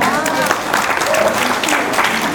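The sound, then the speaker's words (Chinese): Audience applause during a talk, a burst of many hands clapping in a broad, dense patter that stays fairly loud throughout, with a voice speaking over part of it. “来给他掌声鼓励一下。”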